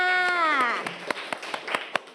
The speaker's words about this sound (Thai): คำตอบถูกต้องค่ะปรบมือให้เพื่อนค่ะ